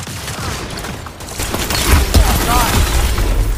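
Gunfire in the police video game FivePD, with a few loud, sharp bursts clustered near the middle over a constant bed of game noise.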